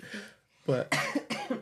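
Coughing from someone who has had a lingering coughing bug for weeks: a quick run of several harsh, loud coughs, preceded by a softer rasp and a short pause.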